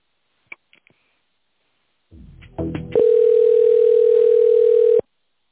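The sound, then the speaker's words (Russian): A telephone line during a call transfer gives a few faint clicks, then a low buzzing hum, then a loud steady single-pitch tone that holds for about two seconds and cuts off abruptly. “Я вас переведу на Фармасте.”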